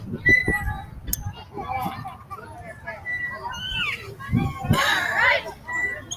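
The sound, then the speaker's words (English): Children play noisily at a park, their voices, calls and chatter rising and falling at a moderate level, with a sharp high shriek near the end. “I'm at the park. It's a lot of kids, there's a lot of noise”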